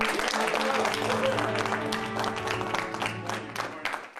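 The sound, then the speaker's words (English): An audience at a corporate event claps to welcome the company's CEO, a dense, steady wash of applause that holds for the whole stretch and eases slightly at the end. “the timing of the applause goes on and on like an adult swim sketch. It goes until it's just almost not funny.”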